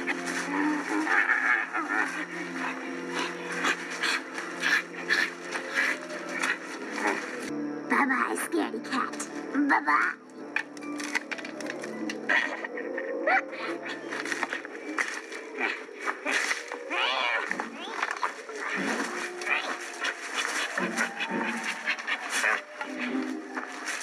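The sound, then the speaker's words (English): A voice imitates animal grunting and growling noises: rough, throaty, nonverbal vocal sounds that run almost without a break and stay loud throughout. “And she makes these animal grunting, growling noises that sound like this.”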